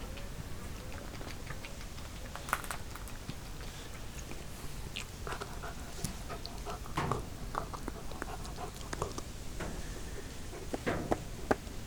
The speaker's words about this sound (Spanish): Y pasa que el cachorro este mueve la cola y la golpea sobre el piso.